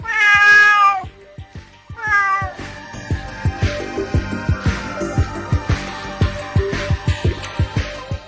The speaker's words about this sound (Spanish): Tiene orejas de gato, ojos de gato, patas de gato y no es un gato. ¿Quién es? Una gata.